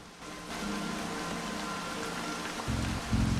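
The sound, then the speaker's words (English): Heavy, unrelenting rain pours down in a waterlogged jungle, making a dense, steady hiss throughout, with a low rumbling layer that swells louder near the end. “with the unrelenting rain still coming down hard”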